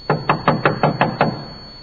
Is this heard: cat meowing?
no